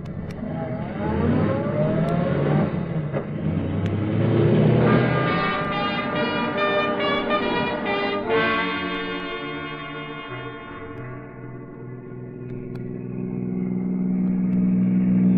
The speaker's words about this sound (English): Taxi! Look, son, I want you to drive me out towards Arlington Park.